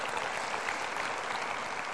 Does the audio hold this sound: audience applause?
yes